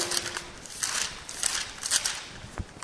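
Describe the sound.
Soft rustles of Bible pages being flipped through to Ephesians chapter 6. Several faint, brief papery swishes come at irregular intervals.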